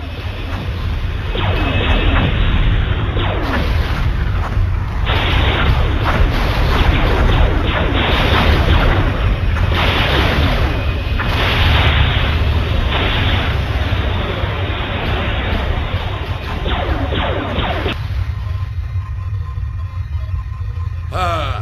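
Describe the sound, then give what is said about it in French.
Sci-fi photon phasers firing at maximum power, a loud, unbroken roar of crackling, rumbling blasts that runs on for about twenty seconds before thinning out at the end. “Hal, mettez les phasers à photons à la puissance maximale! Feu!”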